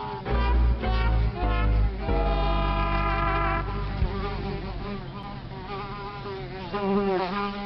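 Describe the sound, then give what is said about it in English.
Buzzing bugs swarming, a dense, loud drone of wavering, warbling pitched tones that shift and overlap continuously throughout. “you know what bugs me? All these bugs!”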